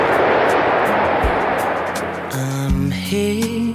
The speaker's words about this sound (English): an aircraft that has enthralled its many admirers for so long taxis home one last time.